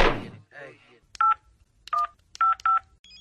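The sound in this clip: Telephone keypad tones beep in four short dual-tone bursts after a brief vocal sound, ending with a fainter tone.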